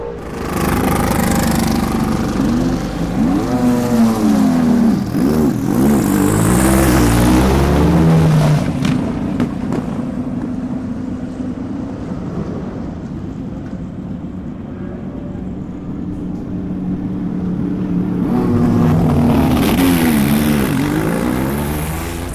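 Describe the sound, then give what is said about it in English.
Two Ford race cars fire up at an IMSA pre-season test and pull out of their pit boxes, engines droning loudly with wavering, revving pitch. The noise eases into a steadier lower rumble in the middle, then swells again near the end. “So here is the sound of the two Fords getting ready to leave their pit boxes. They'll be firing up any second.”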